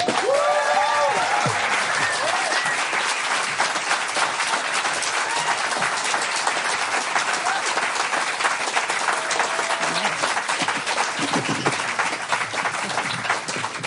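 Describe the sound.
Audience applause welcoming a guest speaker to the stage at a live show: steady, dense clapping that holds at an even level for about fourteen seconds.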